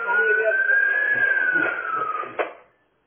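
A police car siren, just switched on, holds a loud, steady wailing tone that rises slightly, then falls, before cutting off abruptly with a sharp click.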